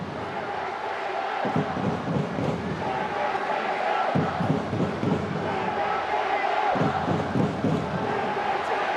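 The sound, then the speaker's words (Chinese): A football stadium crowd cheers and chants in support of the Sanming team, a sustained wash of voices broken by a few low thumping surges spaced several seconds apart. “现场我们在这个转播当中耳轮里面听到的这个加油声都是为三名加油了。”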